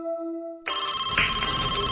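A telephone ringing in a steady electronic tone that cuts off after under a second, before an answering machine picks up, giving way to a brighter, denser sound that continues to the end.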